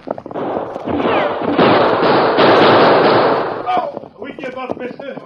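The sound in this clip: Gunfire in an old-time Western radio drama: a loud, dense burst of shots and blasts that runs for a few seconds, followed by voices.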